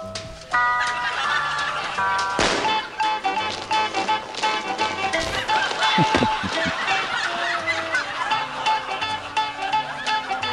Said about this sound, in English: I'll play a little bit so we can hear the music, the Mr. Heavyfoot music. So it says Mr. Heavyfoot runs a marathon.